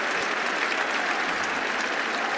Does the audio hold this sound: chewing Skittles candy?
no